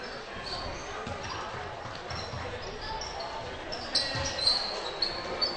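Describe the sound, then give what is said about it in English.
Basketball dribbled on a court during a women's game: repeated bounces under a steady crowd murmur and a commentator's voice. “will dribble it back out towards half court”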